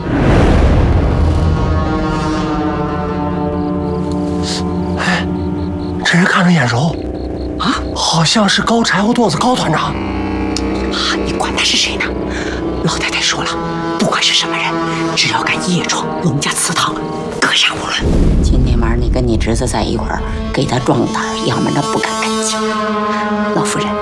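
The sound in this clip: Gunshots in a Chinese radio drama during a night ambush of an intruder at a family ancestral hall, sharp bangs scattered through the scene amid dramatic music and voices.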